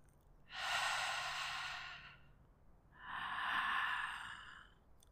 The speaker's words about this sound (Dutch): Kijk of je de letter H met een fluistertoon kan uitspreken, ook tijdens het inademen. Dus zo.